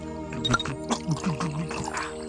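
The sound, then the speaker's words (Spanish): Water is poured into a glass, a gurgling trickle with a few splashy bursts. People talk over the pouring. “Es que estás sirviendo agua de tazco, mi compadre.”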